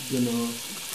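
Food sizzling as it fries in very hot oil, a bright steady hiss with a low tonal hum that is strongest at the start and then settles to a softer crackle.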